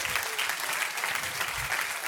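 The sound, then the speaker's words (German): A church audience applauds during a sermon, many hands clapping in a thick, continuous roar that holds steady throughout. “Und jetzt, wenn du es glaubst, gib mal Jesus einen fetten Applaus dazu, oder?”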